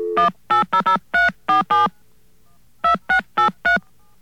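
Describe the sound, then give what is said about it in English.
A touch-tone telephone dials a number for a credit card service line: eleven short, clear beeps of varying pitch, a quick run of seven, then a pause before four more. “I'm sure it doesn't matter if you dial an extra 7. Okay, let's call that up and see if what this person says is true.”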